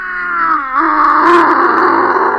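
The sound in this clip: A voice imitates the loud snoring of a sleeping king: a long, low, droning groan that dips briefly in pitch partway through, then continues as a steady, rough rumble.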